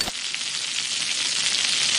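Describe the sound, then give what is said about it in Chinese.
Food frying in a wok as it is tossed: a loud, steady sizzle of hot oil that hisses continuously without a break. “对，这叫翻锅。你先把它锅换一下，转弯，往前一提，这个勺子轻轻一推，往上一翻”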